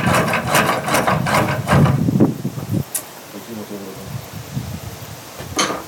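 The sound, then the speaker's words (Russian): A small cord-driven wooden lathe turns a spindle blank, giving quick rhythmic bursts of whirring and scraping as the cord is pulled back and forth, then dropping to quieter, sparser sounds. “Маленький токарный станок для производства веретен. Сюда садимся, одной рукой приводим в движение шнур, второй подводим резец.”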